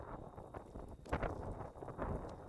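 Wind buffeting the microphone: a faint, continuous low rumbling roar with uneven gusty surges over a couple of seconds.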